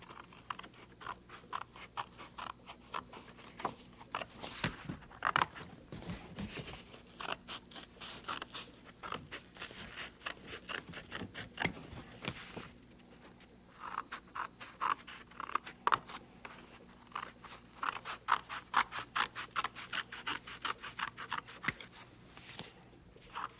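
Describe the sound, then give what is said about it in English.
Scissors cut through paper to make a four-piece puzzle, giving many short, crisp snips in irregular bursts with brief pauses between them. “Now, I'll just cut this some way to make it into a puzzle.”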